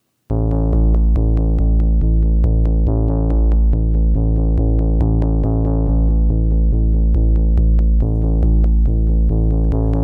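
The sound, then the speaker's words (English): A keyboard synth with a delayed pulse holds a loud, steady low chord, while sharp rhythmic pulses tick evenly across it from start to finish. “So I started exploring with the keyboard sound that has that kind of delayed pulse to it.”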